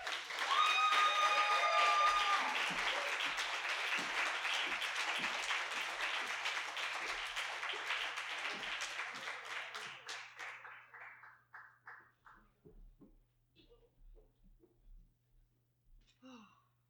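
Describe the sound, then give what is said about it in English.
Audience applause welcoming a poet to the stage at a reading: dense, steady clapping holds strong for about ten seconds, then thins out and fades into a few scattered claps. “Please join me in welcoming Miss Laura Roque to the stage.”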